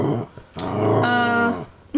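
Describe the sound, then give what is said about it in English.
An angry female dog growls at her owner for not playing with her. A long, tonal, whine-like growl holds for about a second, with shorter throaty snarls before and after. “The dog is furious at me right now because I'm not playing with her.”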